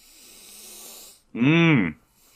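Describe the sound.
A man takes a single loud, deep breath, a throaty, voiced intake about half a second long that follows a stretch of faint background hiss.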